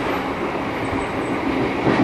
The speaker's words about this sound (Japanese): This is a 中央 line rapid service train for Tokyo. The next station is 東青梅. The doors on the right side will open.